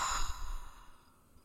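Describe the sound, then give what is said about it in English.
A deep breath is let out slowly as part of a guided breathing exercise, making a single long, breathy sigh that starts fairly strong and fades gradually to quiet. “Inhale love. And exhale fear.”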